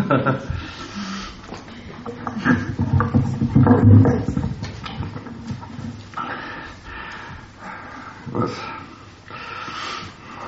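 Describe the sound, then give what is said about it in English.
Heavy breathing of someone out of breath just after doing push-ups, uneven gasping breaths mixed in with talking. “I just did some push-ups. I'm a little out of breath.”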